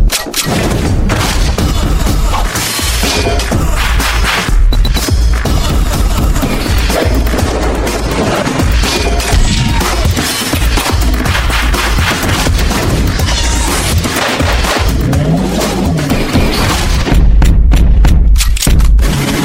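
Gunshot sound effects burst within a loud, dense song, with a few sharp booming shots cutting through the music.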